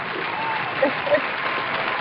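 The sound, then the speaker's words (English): Audience applause for a guest being welcomed onto a show as the crowd is urged to stand: a dense, steady wash of clapping that holds at even loudness throughout. “everybody in the audience to get up and put your hands together for Ms. Rashida A. Marshall”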